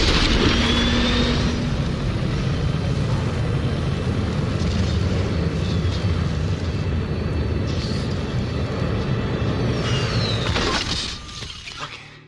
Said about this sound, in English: Seriously, just going to start off with 1% thrust capacity. In 3, 2, 1.